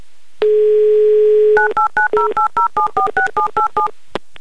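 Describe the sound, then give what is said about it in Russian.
A telephone number being dialed: a steady dial tone, then a rapid, evenly spaced run of about a dozen short keypad tones, ending with a soft click. “Все, набираю номер.”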